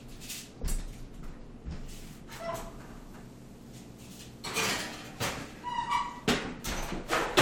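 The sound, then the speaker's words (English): Kitchen clatter as butternut squash is put into the oven: a series of knocks, thuds and dish-like clinks, with the oven door handled, loudest toward the end. “My hands are super clean, and now I'm gonna put these in the oven.”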